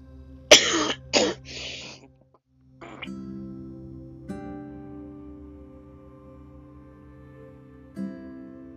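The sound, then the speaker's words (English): A person coughing helplessly and unable to stop, with a few loud, harsh bursts in the opening seconds, then a quieter stretch of steady low tonal hum. “I think the more I cough, the more I'm gonna get, I don't know why, I keep on coughing, and it's like, really, I can't even help it, I can't stop coughing.”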